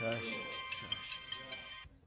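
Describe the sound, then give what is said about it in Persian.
A mobile phone rings with steady electronic tones under a man's talk, then stops just before the end. “گوشیتون داره زنگ میخوره آقا. میتونی گوشی تو جواب بدی”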